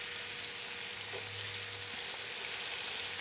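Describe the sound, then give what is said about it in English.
A pork medallion sizzles fat side down as it browns in a pan, giving a continuous, fairly soft frying hiss with small crackles and no voices. “So you could just see it's, I put the fat side down. You can see the browning now. It's all starting. It looks great.”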